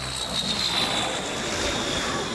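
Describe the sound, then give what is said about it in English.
An airplane arriving at a camp gives a steady, broad engine drone that holds an even loudness throughout, with no voices. “Every Sunday, a plane arrived at the camp to take the boys from nowhere to somewhere.”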